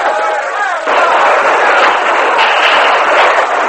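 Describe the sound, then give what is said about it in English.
Riders firing guns as they charge into a skirmish: a loud, dense barrage of overlapping shots that merges into a continuous, rumbling roar throughout. “the renegade suddenly appeared over one of the ridges and rode down the slope, firing as they came. Skirmish line means fire at will!”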